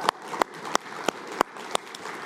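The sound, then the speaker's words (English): A church audience applauds as new covenant members are welcomed. Steady, moderately faint clapping is punctuated at regular intervals by a few louder, sharper claps. “Yes, you can clap for that too. That is worth celebrating for sure.”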